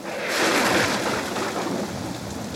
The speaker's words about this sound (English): It's raining! Help!